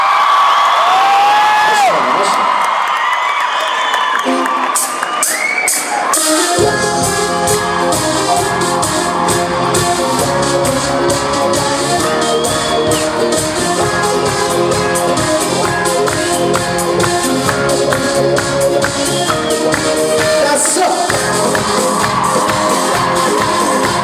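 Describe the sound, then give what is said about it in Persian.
Concert crowd screaming and clapping along to a live song: loud cheers and shrieks at the start, then the band kicks in with a driving rhythmic beat while the audience keeps shouting over the music. “ببینیم که چجوری دست بزنیم یه دسته جیغ بزنیم”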